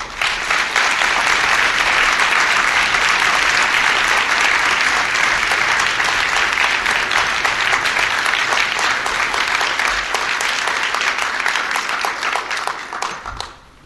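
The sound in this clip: Steady, dense audience applause welcoming author Naomi Klein to an evening talk, holding loud and even for about thirteen seconds before thinning out at the very end.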